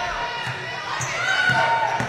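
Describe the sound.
A basketball is dribbled on a court during a Lady Pirates game: a few steady, evenly spaced bounces, each a dull thump, with a voice talking, a faint crowd murmur and brief squeaks.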